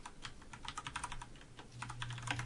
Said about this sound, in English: Excuse me, I'm typing.